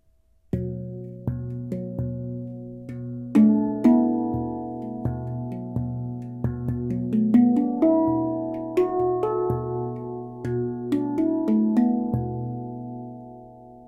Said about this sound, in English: So handpan is an instrument born in Switzerland about 20 years ago.